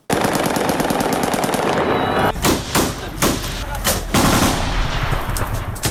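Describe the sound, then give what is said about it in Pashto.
Celebratory aerial gunfire in Kabul after an Afghan cricket win over Pakistan: a dense, sustained rattle of automatic fire for about two seconds, then several separate loud bursts with short gaps between them. “په دې اړه نور جزئیات له کابل د رحمت الله افغان په رپورټ کې دي چې په هوایي ډزو پیلېږي.”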